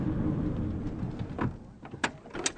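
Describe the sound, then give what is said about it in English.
A car door as someone gets out of a car by the seaside: a faint, low rumble gives way to a couple of sharp clicks and knocks near the end. “So I've just come out of the car”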